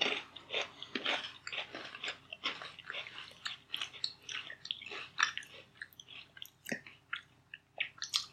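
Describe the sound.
Crunchy chewing of a coffee-flavoured cookie, with many irregular bites and crunches in quick succession, sharp and crisp with no talk.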